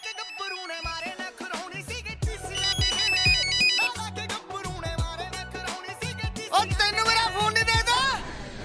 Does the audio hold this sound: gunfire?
no